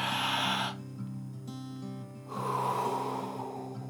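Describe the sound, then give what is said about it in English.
One big deep breath, an airy rush in two broad surges with a quieter gap between, soft overall and set over a faint, steady sustained tone. “I'm going to mind the time after this one big breath, and then I'll be back in a couple of moments. You ready to breathe?”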